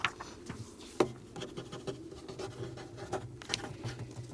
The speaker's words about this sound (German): Kein Widerspruch? Umbenennen. Hier, schreib eine Resolution.